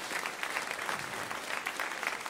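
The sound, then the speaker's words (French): Applause from a church audience honouring the church's seniors: steady, dense clapping from many hands that holds at an even level throughout, with no break or voices standing out. “Est-ce qu'on peut les applaudir, tous nos aînés?”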